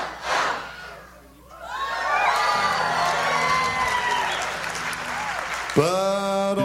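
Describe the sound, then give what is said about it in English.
Audience clapping and cheering as a children's song about little ducks nears its end, steady applause mixed with shouting voices and sung tones. “Why are these people clapping? I think they realize the song is almost over.”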